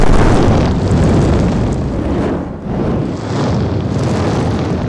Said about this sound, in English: Feel the heat with scorching fireballs.